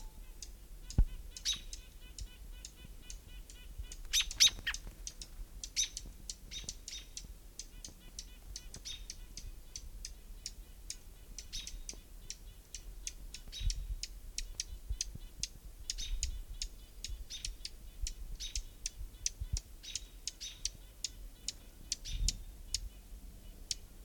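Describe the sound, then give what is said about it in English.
Hermit Warbler singing, a faint stream of many thin, high chirping notes that repeats over a quiet background with scattered light clicks. “Hermit Warbler right nearby.”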